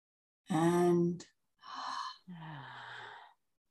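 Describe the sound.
Deep breaths taken during a guided breathing exercise: three long, airy breaths in a row, the first loud with a voiced, sighing tone, the next two softer and hissy.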